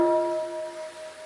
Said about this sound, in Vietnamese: Xong rồi á, tâm mình lắng xuống rồi thì mình mới thỉnh một tiếng gọi là tiếng thức. Tiếng thức tức là nửa tiếng thôi.